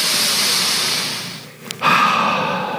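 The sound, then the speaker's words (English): A deep breath, a long airy rush of air that fades away, a brief pause, then another steady breathy exhale. “I want you to just kind of take a moment and take a deep breath with me.”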